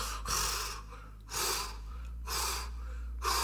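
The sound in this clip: Angry, ragged breathing noises said to come from a motorcycle: four heavy, raspy gasps in a slow, uneven rhythm, loud, with no talk.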